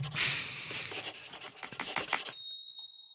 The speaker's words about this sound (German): Das schreibe ich mir mal direkt auf.